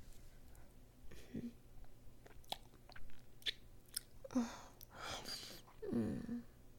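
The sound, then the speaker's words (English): Wet licking and mouth sounds on skin, soft and intermittent, with a few louder moist smacks standing out from quieter lip and tongue noises; no talk. “What if I was to lean forward and lick where my thumb is? Would you like that? Can I lick you there?”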